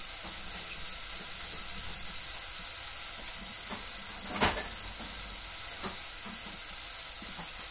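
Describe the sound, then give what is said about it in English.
Onions fry in a pan as they begin to caramelize, giving a steady, bright sizzle with faint crackles throughout and one sharper knock partway through. “It's funny how good a fried onion already smells.”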